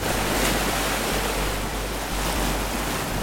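Ocean waves wash the seashore in Reykjavik in a steady, broad rushing surge, with wind buffeting throughout.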